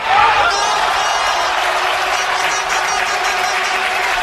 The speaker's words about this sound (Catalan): Aquest era el so de l'El Mántico en l'últim gol del Salamanca aquell any 2013.